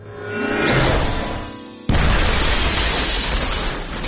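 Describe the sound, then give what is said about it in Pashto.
An explosion in a laboratory from mixing chemicals: a hissing sound swells gradually, then a sudden loud blast bursts out near two seconds and gives way to a sustained, rough roar. “فادي د کیمیاوي موادو په ترکیب نه پوهېدو لابراتوار ته یې چاودنه ورکړه”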